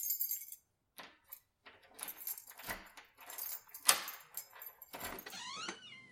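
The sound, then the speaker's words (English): Keys jangle and clink in a door lock as someone comes home. The sound comes as a series of irregular, fairly quiet metallic rattles and clicks with short pauses between them, and no talking. “Finally, the lock rattled.”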